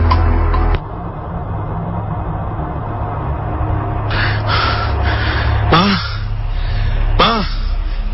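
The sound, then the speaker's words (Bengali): A person panting out of breath after hurrying home, a few sharp, breathy gasps in the second half over a steady low background hum. “হাঁপাচ্ছিস তো?”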